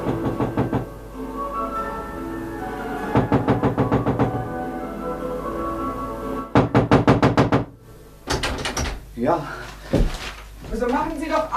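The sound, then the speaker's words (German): Knocking on a door: several quick groups of sharp, loud raps come in bursts over a sustained tonal background, with a voice speaking toward the end. “Ja, wir klopfen schon seit 5 Minuten, mein Herr.”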